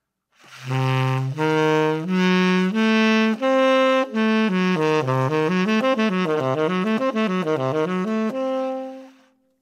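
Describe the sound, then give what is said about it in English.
A diminished seventh chord of notes stacked in minor thirds, C, E flat, F sharp and A, sounds as a few loud, held tones, then a quick run of notes that climbs and falls repeatedly before a final sustained tone. “All of those notes are separated by what interval? A minor third. Sounds like this.”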